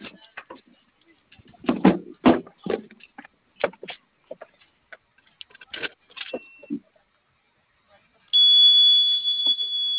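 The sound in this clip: A panic button alarm sounds over a phone call: after a stretch of talk and scattered clicks, a steady, high-pitched continuous tone starts near the end and holds.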